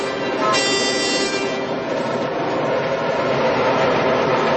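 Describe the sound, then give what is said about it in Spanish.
A train rushes past without stopping, making a loud, steady rumble of rail noise. A brief horn blast sounds near the start. “Pero el tren pasa de largo.”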